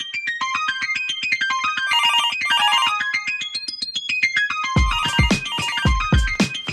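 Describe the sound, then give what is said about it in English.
A telephone rings with a melodic electronic ringtone, a rapid repeating pattern of beeping notes. Loud percussive thumps join it in the second half. “Oh, there goes the phone now.”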